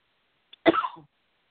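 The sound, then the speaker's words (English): A single cough during a guided breathing and relaxation exercise, one short, sharp burst that trails off quickly. A faint click comes just before it, and silence follows. “Or cough. And cough. Release.”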